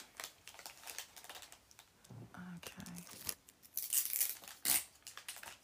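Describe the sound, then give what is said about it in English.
Wrapping paper crinkles and tape tears as a present is wrapped, in a run of irregular crackles and rips that get louder in bursts toward the end. “Oh, this is going to be difficult to wrap.”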